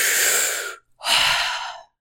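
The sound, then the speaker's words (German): A deep, gasping breath for air, as if someone has just broken through the water's surface. Two long, loud, airy rushes are separated by a brief pause, with no words spoken. “Du machst einen großen, tiefen Atemzug.”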